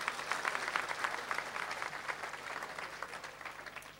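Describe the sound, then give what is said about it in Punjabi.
Dense, steady applause from an audience at a religious devotional stage event honouring a temple mahant, many hands clapping together for several seconds and easing slightly toward the end. “यहाँ तक एक stage तक लाने वाले महंत ओम नाथ जी के लिए भी ताली बजाइए ना जी।”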